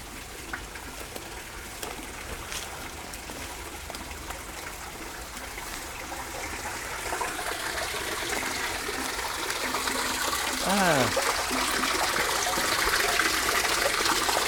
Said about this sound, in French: On va s'avancer un peu là, on entend déjà le bruit de l'eau avant qu'elle parte à la Seine, elle rejoigne la Seine.